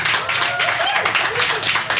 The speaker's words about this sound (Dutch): Mag ik een applaus voor Tawe Ido?